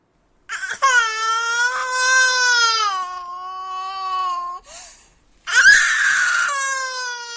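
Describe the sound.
A child screams and cries, torn from its mother's arms: a long, high, wavering wail, a brief break with a short whimper, then a second loud, harsh scream.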